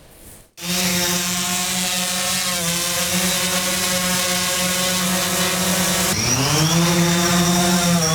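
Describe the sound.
A drone lifted to search for a runaway sacrificial calf in Akyurt, Ankara, gives a loud, even buzzing motor whine. It starts abruptly after a brief quiet moment, then dips in pitch near the end and climbs back.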